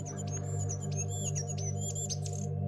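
A small bird with a yellow crest and a thin black beak sings bright, quick, high chirps and trills over a steady low hum, with no voices.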